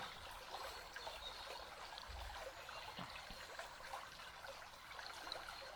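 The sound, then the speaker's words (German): Gently babbling flowing water, a soft, continuous trickle and splash that stays faint and even throughout, with no other sounds standing out. “Du spürst dieses Fließen und hörst es. Dieses sanfte Plätschern.”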